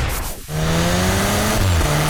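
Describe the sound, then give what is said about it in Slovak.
A Cupra car engine revs: a brief whooshing surge gives way to a loud, sustained, throaty engine tone with strong steady harmonics, heard alone without voices. “Tomu hovorím zvuk. Cupra.”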